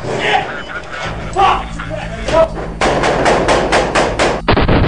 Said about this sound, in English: That is the sound of the U.S. offensive in Marja, Afghanistan, bogging down.